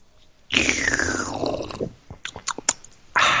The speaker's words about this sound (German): muss erstmal was trinken. Heute mit einer Apfel-Mango-Saftschorle.